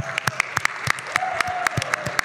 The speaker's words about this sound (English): Let's give it up for Jacob. I mean, that's for your host.